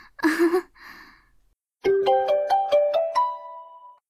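A mobile phone ringtone plays as a melodic run of bright electronic tones that step upward in pitch, after a short vocal sound and a pause.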